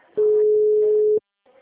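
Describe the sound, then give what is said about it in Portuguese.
A telephone busy tone sounds after a phone call drops: one steady, low-mid tone lasting about a second. It ends abruptly, and after a short silence a faint voice begins. “Caiu a ligação. Caiu.”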